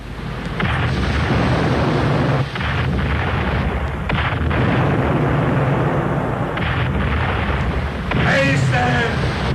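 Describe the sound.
Artillery cannons fire on command, a dense, continuous roar of booming blasts that fills the whole stretch at steady loudness, with a voice rising briefly near the end.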